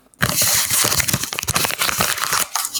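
Paper crinkling and tearing as an envelope stuck with blue tack is peeled off a painted wall beside a desk. A continuous, busy rustle of scrapes and crackles runs for a few seconds after a short silence.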